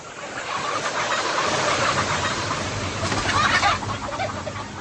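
Chickens in a dirty, dusty mass-production poultry shed: a dense, continuous din of many birds clucking together, with no clear gaps and a slight swell in loudness near the end.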